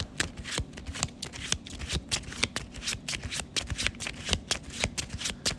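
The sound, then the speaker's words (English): Playing cards are handled and shuffled during a tabletop card game, a quick run of many crisp, papery flicks and snaps, quiet and with no talk. “I will draw my encounter card.”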